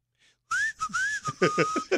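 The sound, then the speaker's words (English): A person whistles through their teeth, sounding a short run of several clear, fairly high notes with some gliding pitch. Breathy, airy bursts are mixed into the later notes, and the whistling is loud and heard alone. “Whistle, like this.”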